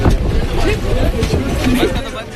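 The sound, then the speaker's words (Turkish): A crowd rushing onto a local commuter train in Mumbai, heard as a dense, continuous hubbub of many voices over low rumbling noise. It stays steady and loud from start to finish. “Kapılar açıldığındaysa kalabalık bir anda trene hücum ediyor. Omuz omuza, dirsek dirseğe herkes kendine bir yer açmaya çalışıyor.”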